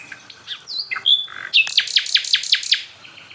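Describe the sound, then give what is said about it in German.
Song of a common nightingale: a few clear whistled and chirping notes, then a fast, loud run of about seven sharply repeated, descending notes before a quieter close. “Also ich stehe jetzt bei der Hotspot Nachtigall. Und das ist auch die von der ersten Aufnahme. Das ist die, als allererstes hier ankam.”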